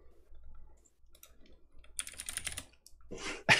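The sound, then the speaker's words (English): Typing on a computer keyboard as people fall silent to message moderators in a side chat: soft, sparse key clicks at low level, with denser, louder bursts of clicking near the end. “We get all silent. We're typing to our mods in the side chat.”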